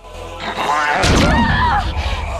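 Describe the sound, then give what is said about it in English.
A head slams hard against glass, giving one heavy, loud thud about midway, amid tonal vocal sounds and voices that continue around the impact. “Baring his teeth, he runs full pelt at them, rebounding off the glass.”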